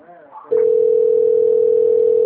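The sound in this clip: A continuous steady telephone dial tone as a call is placed, loud and unwavering, following a short bit of speech at the start.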